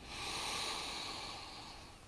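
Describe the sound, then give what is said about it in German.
A deep inhalation during a guided breathing meditation, heard as a steady, airy hiss of drawn breath that swells quickly and then thins out slowly over about two seconds, with no talking. “Einatmen.”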